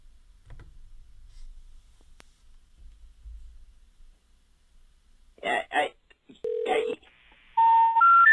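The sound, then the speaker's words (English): Telephone tones follow a call to a number: one short steady tone, then a loud sequence of rising tones at the end, after quiet low rumble. “I have another number that was in the background on Seinfeld. And we're going to call that now.”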